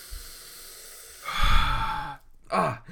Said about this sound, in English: I think right now you and I have to take a deep breath, first of all. Why? Trust me. Take a deep breath, okay.